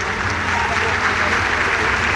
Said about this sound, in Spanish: discurso y con el aplauso del Salón de Honor del Poder Legislativo.